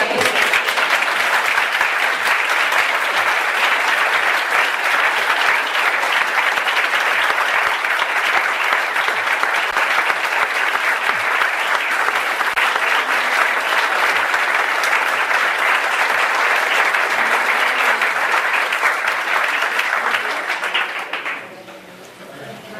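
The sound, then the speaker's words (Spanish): Sustained audience applause after a lecture at a theosophy summer school: dense, steady clapping from many people that holds at an even loudness for about twenty seconds, then quickly dies away. “Esto merece un aplauso, ¿no?”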